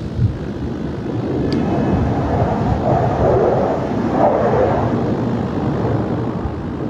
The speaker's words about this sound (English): what better way to celebrate that than a flyover from the U.S. Air Force Thunderbirds. Take a listen to this afternoon.